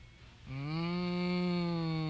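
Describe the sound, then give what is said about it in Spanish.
A cow at a drinking trough lets out one long, deep moo that starts after a quiet moment and holds loud and steady to the end. “Dos vacas que mientras saboreaban el agua del bebedero comentaban:”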